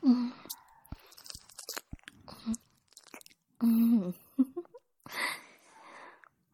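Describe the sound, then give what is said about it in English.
Close, wet mouth sounds of licking a neck: irregular smacks and slurps, some loud and some faint, with gaps of near silence and soft voiced murmurs between them. “I want to have a little bit of a taste. Let's see what happens. I lick your neck like this.”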